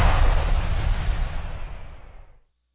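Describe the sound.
Diwali firecrackers burst in a loud, dense crackling roar that holds steady, then thins and fades out at about two and a half seconds.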